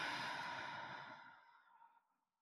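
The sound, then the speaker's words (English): A long, soft exhale during a guided relaxation breathing exercise: a breathy, airy rush that starts fairly strong and gradually fades away to silence over about two seconds. “The first breath, breathe in. And exhale all that's no longer serving you.”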